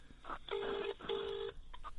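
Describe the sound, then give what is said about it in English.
Telephone keypad tones beep over a speakerphone as an international number to Sweden is dialed: a few short electronic tones around two longer steady beeps, faint and with no talking. “This is the one I've just dialed. I'm going to do this. Put it on speaker.”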